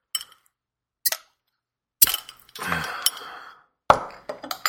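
A bottle of Anderson Valley beer is cracked open. A few sharp clinks and a pop are followed by a soft fizzing hiss that lasts about a second, then another crisp clink.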